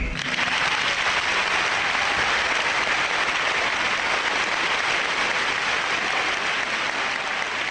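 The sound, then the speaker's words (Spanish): Studio applause for an interviewee: a dense, even clapping from a group that stays steady and fairly loud for the whole clip. “vamos a inaugurar una nueva sección del programa, que es aplaudir al entrevistado”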